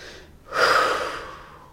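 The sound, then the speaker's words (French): A deep exhalation during a guided breathing exercise, heard alone as a single long, breathy whoosh that swells quickly and then slowly fades. “Une deuxième fois, on inspire encore, on rassemble encore, on met toute notre intentionnalité à l'expiration”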